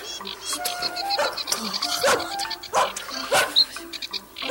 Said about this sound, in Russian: Ух ты, какая собака большая.